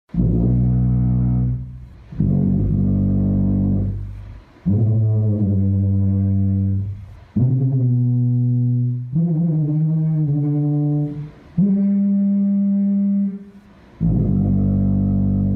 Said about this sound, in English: This is an instrument called the Titanic tuba. It's the biggest tuba in the world. So this is what 16 seconds sounds like.